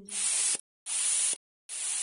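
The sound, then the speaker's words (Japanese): Nipple pump suction sound effect: three bursts of bright, breathy hiss, each about half a second long and separated by short silent gaps, with the third burst still running at the end. “ニップルポンプ、両乳首に装着。左乳首、吸引。右乳首、吸引。”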